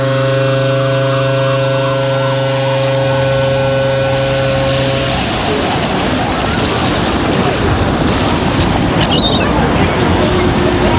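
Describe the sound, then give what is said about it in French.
Seaside ambience of waves and wind, with boats nearby: a steady, loud wash of surf noise fills the second half, with a brief sharper splash near the end. “on est au bord de la mer, les mouettes, les bateaux, tout y est.”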